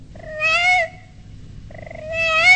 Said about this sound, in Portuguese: E o gatinho foi chegando e foi miando.